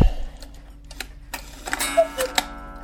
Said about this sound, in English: This has got to be the biggest cuckoo clock I think I've ever seen. You can tell by that tick that it's huge.